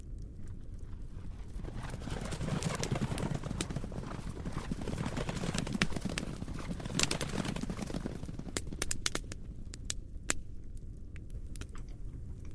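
Horses' hooves clip-clop as riders hurry on horseback toward a nearby town. Many hoof strikes run together in a fast, dense, steady patter at moderate loudness throughout, with no voices.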